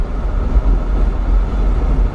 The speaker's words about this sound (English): And I'm sorry for the noise. I got my freaking window down.